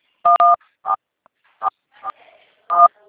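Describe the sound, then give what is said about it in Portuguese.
Telephone keypad tones sound as keys are pressed during a phone call. Several short, clear dual-tone beeps come at irregular intervals, the first two almost back to back, with faint noise between them. “você tá apertando nos teclados, não tá?”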